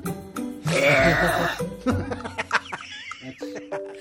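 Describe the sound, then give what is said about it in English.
A single long, loud, deep burp, announced as a world-record-breaking belch, rumbles and gurgles for about a second, followed by shorter, scattered vocal noises. “To produce this world record breaking burp.”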